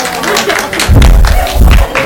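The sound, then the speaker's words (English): An audience claps briefly during a talk, with a few scattered claps and thumps mixed with a speaking voice. “No. Before you're clapping, first find out.”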